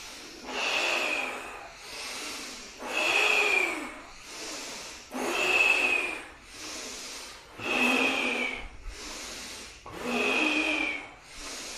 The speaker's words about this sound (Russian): Задувание свечи, вдох. Мощнее вдох.